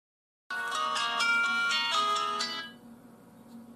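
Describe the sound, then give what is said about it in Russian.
A telephone ringtone sounds for an incoming call: a loud, bright electronic melody of quick, stepping notes plays for about two seconds, then fades into a faint tail, with no voices. “В общем, вот оно само объявление, и ждем первого звоночка.”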